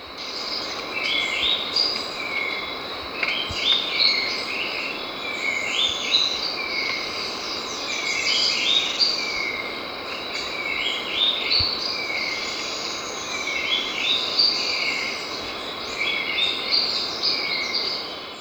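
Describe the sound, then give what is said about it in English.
A gray-throated leaftosser calls along with a slaty-capped shrike-vireo: many short, high chirping phrases repeat at a steady pace over a constant insect-like hiss. “Gray-throated leaf tosser, 1, with slaty cap shrike vireo.”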